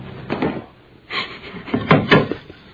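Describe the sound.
A desk drawer opened: several wooden knocks and rumbling slides in an uneven burst, fairly loud and heard alone.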